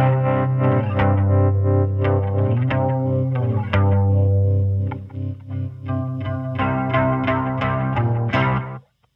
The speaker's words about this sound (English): So that's what Hayden's put on this electric guitar. So have a listen, along with the tremolo that it was recorded with.